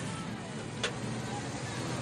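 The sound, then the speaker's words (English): A car peels around a corner and then reverses, with steady, fairly faint engine and road noise and one brief sharp burst midway. “Mikey peels around the corner. He reverses into the back of the liquor store.”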